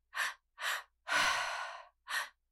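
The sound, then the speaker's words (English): Rhythmic in-out breathwork breathing: a series of short, breathy puffs of even loudness, with one longer, drawn-out breath in the middle. The breaths are alone, with clean silence between them. “And then the second breath pattern is an in out. So what does that sound like?”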